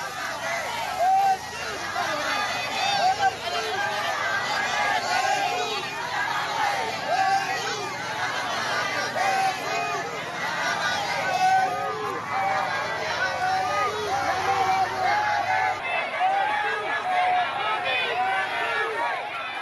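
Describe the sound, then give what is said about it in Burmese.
Crowds lining the road in Naypyidaw welcoming Aung San Suu Kyi on her way home from the airport: a continuous, dense babble of many voices calling and chattering at a fairly steady level throughout. “ခုကြားခဲ့ရတဲ့အတန်ကတော့နေပြည်တော်နိုင်ငံတကာလေဆိပ်ကနေနေအိမ်ကိုပြန်လာနေတဲ့နိုင်ငံတော်၏တိုင်ပင်ခံပုဂ္ဂိုလ်ဒေါ်အောင်ဆန်းစုကြည်ကိုလမ်းမဝဲရာတစ်လျှောက်ကပြည်သူတွေဝန်ထမ်းအနေနဲ့ကျောင်းသူကျောင်းသားတွေကြိုဆိုနေကြတဲ့အတန်ဖြစ်ပါတယ်။”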